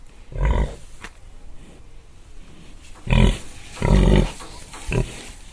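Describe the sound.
A pig grunts deeply, with four loud, low, rough grunts spaced unevenly and a fainter one between, over a quiet background hiss.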